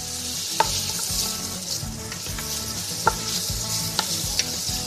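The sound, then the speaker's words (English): Garlic and onion sauteing in about a third of a cup of extra virgin olive oil in a pan over medium heat, a steady dense sizzle broken by a few sharp pops and clicks, with no talking. “Okay, let's put this over medium heat and start to saute that garlic and onion.”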